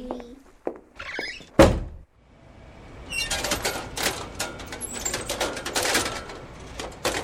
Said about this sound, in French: J'arrive pas à fermer la fenêtre.